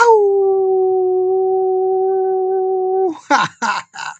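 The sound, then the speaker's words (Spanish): A human voice imitates a howl, holding one long, steady, tonal note for about three seconds, then breaking into three short, rough, breathy bursts. “me gusta aullarles, mis queridos desvelados, mis amadas desveladas. Me gusta aullarles”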